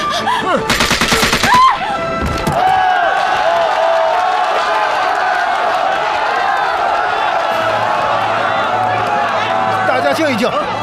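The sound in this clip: Gunfire aboard a train: a rapid burst of loud, sharp shots comes early, followed by a long stretch of steady, noisy commotion with voices mixed in.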